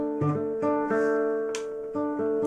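Classical guitar plucking a simple bass pattern for a folk dance piece, a few clear low notes in a steady repeating rhythm with ringing overtones, the guitar not quite in tune.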